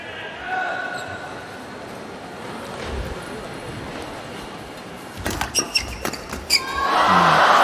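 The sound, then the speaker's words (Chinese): A table tennis ball is served and returned in a match, heard as a quick series of sharp, light clicks of ball on paddle and table. They sound over a steady, noisy background with some speech, then a louder swell of noise follows. “徐承宰发球，菲克里来接发。”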